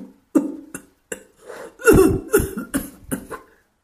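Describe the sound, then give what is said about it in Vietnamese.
An elderly man coughs violently, a series of harsh, rasping coughs that start sparse and grow heavier and quicker in the middle before trailing off. “Lời chi dứt liền bật ho đến rút ruột dở phổi.”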